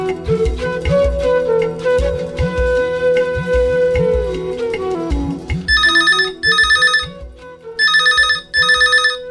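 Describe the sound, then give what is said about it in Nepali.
A telephone rings at night with a bright, trilling electronic bell in four bursts grouped as two double rings. Before the ringing comes a stretch of music with a plucked melody and low beats. “सुतिसकेकी थिएँ, telephone बज्यो, निकै बेरसम्म बजिराख्यो।”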